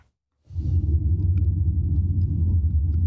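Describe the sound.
Steady low rumble of a car driving around a city. It starts abruptly after a short silence, then holds an even, loud engine and road drone with no talk.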